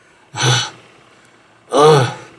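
Two heavy, gasping breaths from a wounded man panting, each short and loud, separated by a pause of about a second, the second one more voiced and rasping.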